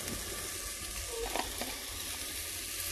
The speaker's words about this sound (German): Ja, Zwiebeln gehen an, das dauert einen Augenblick.